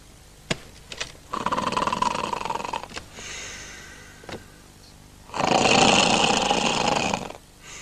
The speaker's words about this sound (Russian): На диване храпит пьяный Илья Медведь.